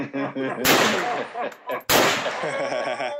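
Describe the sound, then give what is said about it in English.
A gunshot sound effect fires twice: two loud, sudden blasts, each followed by a long, fading tail. “But shots fired effect. Insert here.”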